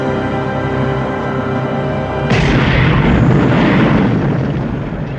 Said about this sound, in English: He's halfway there when it explodes.